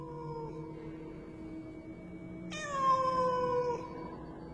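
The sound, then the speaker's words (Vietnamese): A cat meowing urgently: one long, drawn-out meow that dips slightly in pitch toward its end, fairly faint over a steady low hum. “đáp lại anh Kiệt chỉ là tiếng con mèo kêu, nghe lại là càng khẩn thiết”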